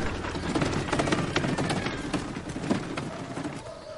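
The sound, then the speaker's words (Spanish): A cart loaded with suitcases and a wooden box is dragged through a village street, giving a steady rattling clatter with irregular knocks and bumps throughout. “George camina por el pueblo arrastrando un carrito con varias maletas y una caja de madera.”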